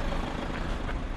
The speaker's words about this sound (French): On est monté dans la voiture et on roule maintenant vers l'immense site antique de Palmyre.